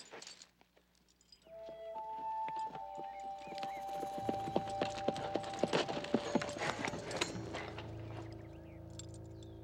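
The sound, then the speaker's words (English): Hooves clip-clop as a horse walks, the steady hoof strikes starting after a quiet opening and continuing as many even, moderately loud clops. “Walking his horse next to hers, the warrior reaches out and yanks off her cowboy hat.”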